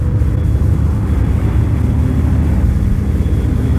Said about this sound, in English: The aircraft banks away at high speed.